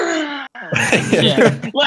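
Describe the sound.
A voice imitates someone gasping out a held breath: a short strained groan, a brief pause, then a longer loud, breathy, rasping exhale with a strangled vocal edge that tails off.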